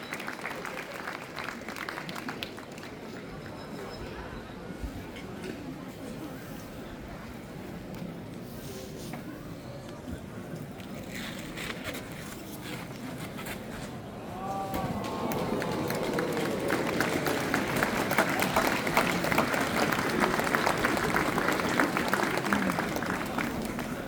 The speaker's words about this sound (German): Mit ein bisschen Applaus wird das alles noch ein bisschen schöner und ein bisschen motivierender.